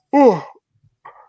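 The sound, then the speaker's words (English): A single brief yawn: a voiced, breathy exhale that slides downward in pitch, followed by a short, faint vocal trailing sound. “yawned right in the middle of that”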